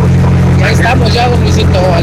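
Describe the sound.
A truck engine drones steadily while the vehicle drives along a highway, a loud, constant low rumble with a humming tone filling the whole stretch, with speech over it.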